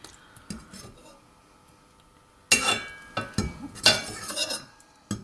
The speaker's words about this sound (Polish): Tylko, że jest też bardzo gorące, więc ostrożnie muszę je wyjmować, żeby się nie poparzyć. Mięso zostało wyjęte.